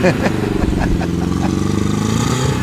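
Rattly engine of a 924 Carrera GTS rally car running loud and steady, a harsh, clattering four-cylinder drone with fast rough pulsing that holds throughout without pause.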